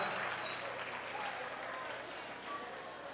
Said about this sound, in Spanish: quiero el más grande y fuerte los aplausos para los trabajadores del Limbus